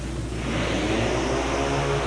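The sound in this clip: Loud engine roar from vintage twin motorcycles in a main-event race, including a hardtail Harley and a 750 Triumph, holding a steady, throaty drone throughout without a break.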